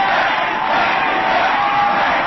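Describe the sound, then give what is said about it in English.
A crowd in Michigan cheering for John McCain after his New Hampshire win, a loud, continuous wall of shouting and cheering voices that holds steady throughout. “Also in Michigan, fresh from the New Hampshire win, John McCain amid cheers of Mac is back.”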